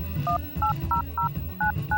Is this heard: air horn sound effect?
no